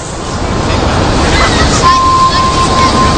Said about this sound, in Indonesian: Sampai dari kejauhan, ombak mulai datang. Aku bersiap di posisi menerjang ombak itu sambil berenang.